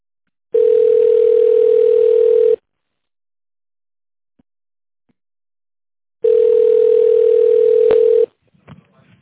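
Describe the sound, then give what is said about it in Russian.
Voicemail prompt beep tones on a phone line: two long, steady mid-pitched tones, each about two seconds, separated by several seconds of silence, followed by faint clicks and noise. “Также можете оставить голосовое сообщение после звукового сигнала.”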